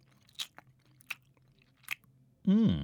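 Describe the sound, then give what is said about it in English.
Someone tasting raw cake mix makes three brief, soft mouth sounds, evenly spaced chewing smacks against near silence, before a voice begins speaking. “Do you want to taste the cake mix? Oh, go on then.”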